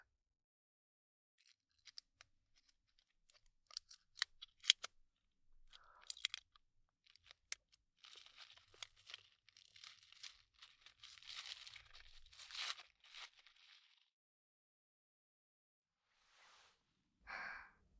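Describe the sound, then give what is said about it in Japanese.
A small package is unwrapped for a taste, with sharp crinkling and tearing of the wrapper. Scattered crackles give way to a dense, quiet stretch of rustling, then a brief final crumple. “包み開けるよ”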